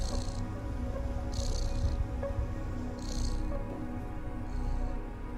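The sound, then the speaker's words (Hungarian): A sleepy cat purrs while curled up beside a musician, giving a soft, steady low rumble with faint airy puffs recurring every second or so. “És megint aludhat egy picit a cica. És megint jön a dorombolás.”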